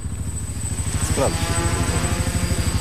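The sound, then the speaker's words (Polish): A search drone flies over open terrain, its propellers producing a steady, low, pulsing buzz with a thin high whine running above it throughout. “Będziemy mieli wsparcie drona, który sektoruje nam część terenu, bo nie wszystko znamy. Jest to urządzenie typu dron, które jest wykorzystywane do poszukiwań w terenie otwartym.”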